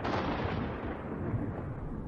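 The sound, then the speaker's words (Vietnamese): Thunder from a lightning strike rolls as a faint, continuous low rumble with no sharp single crack, steady throughout. “Chợt trên trời lại có một tiếng sét lần nữa vang lên.”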